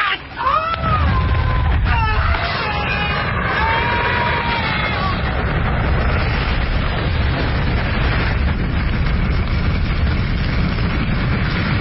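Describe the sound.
A loud TNT explosion, set off by a grenade in a crate aboard a drifting boat, bursts in and swells into a long sustained roar that fills the whole clip, with shouting voices briefly audible near the start.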